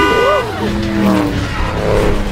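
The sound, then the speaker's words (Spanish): A car drives and skids, its tires squealing in high wavering tones that bend in pitch over a loud, steady engine rumble. Voices can be heard shouting alongside the noise. “¡Gira el volante! ¡Scooby-Doo, toma el volante!”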